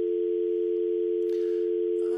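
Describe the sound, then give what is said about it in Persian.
A telephone dial tone after a dropped phone call: one steady, unbroken hum that holds at a constant pitch for the whole stretch, alone, with a faint click near the end. “ببخشید از اینکه ارتباط تلفنی قطع شد و ما خلا در جریان صحبت آمد.”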